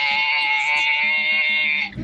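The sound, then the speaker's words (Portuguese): A voice imitates a goat bleating like a nanny goat in heat, holding one nasal, quavering, sustained call for about two seconds that shifts into a calf-like sound at the very end. “Tá aí, imitou um bezerro também no final. Meu Deus do céu. Um abraço, véio, pra você, meu a querido. Cabrita no cio.”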